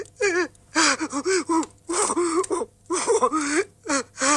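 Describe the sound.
A man cries, with many broken bursts of wailing sobs separated by short gasping pauses. His voice wavers up and down in pitch and stays fairly loud throughout.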